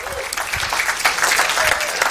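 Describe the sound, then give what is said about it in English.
Sustained applause from a church audience welcoming a pastor to preach, a dense, steady patter of many hands clapping at an even loudness from start to finish. “Put your hands together as we welcome Pastor Mitch Thurman to share God's word.”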